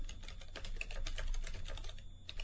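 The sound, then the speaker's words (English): Fast typing on a computer keyboard as a website address is entered: a dense, even clatter of light keystrokes, fairly faint and continuous, with no voices. “There we go. Oops, I typed it in wrong. Don't use that one.”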